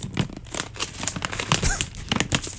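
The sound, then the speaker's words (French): Plastic bag being opened, giving irregular bursts of crinkling and rustling that go on throughout, some louder and sharper than others. “Donc, je baisse la trame et on écoute notre beau petit sac s'ouvrir.”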